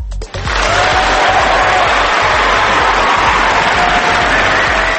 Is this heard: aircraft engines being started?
no

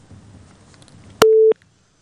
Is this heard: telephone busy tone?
yes

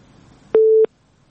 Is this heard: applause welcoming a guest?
no

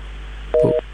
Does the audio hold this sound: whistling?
no

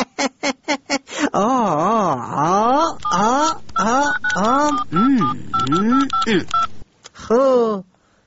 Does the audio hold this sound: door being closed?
no

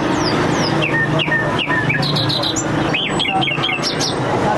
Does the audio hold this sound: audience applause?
no

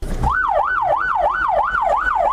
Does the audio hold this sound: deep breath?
no

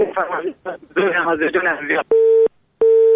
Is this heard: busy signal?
yes

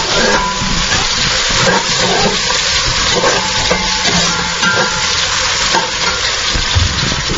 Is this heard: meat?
yes

